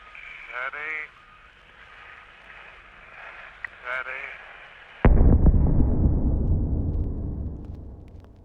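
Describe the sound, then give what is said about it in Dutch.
A bomb explodes and strikes a church tower during an air raid. After a stretch of voices talking, a sudden loud blast breaks in and turns into a heavy, sustained roaring rumble that lasts to the end. “Bij de Sint-Stevenskerk slaat een van de eerste bommen in.”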